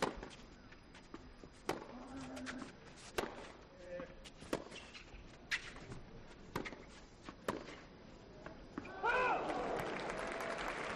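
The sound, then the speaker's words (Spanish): A professional tennis match between Rafa Nadal and Van de Zandschulp, heard courtside: a faint rally of many sharp ball strikes with occasional shoe squeaks, then a burst of crowd cheering and applause near the end. “Os dejo que escuchéis el tenis a pie de pista.”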